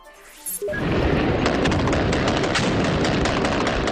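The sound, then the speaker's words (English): Gunfire from a fierce gun battle between Taliban fighters and security forces in Kandahar, Afghanistan. After a brief quieter moment, loud, dense, rapid crackling shots continue without a break. “Sounds of a fierce gun battle that broke out between a team of Taliban fighters who were targeting UN government buildings and the security forces there.”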